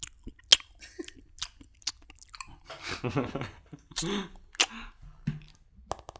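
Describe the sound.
A person imitates loud chewing with the mouth: wet smacking clicks and crunchy bursts that repeat irregularly, with a short stretch of voiced, slurpy noise in the middle.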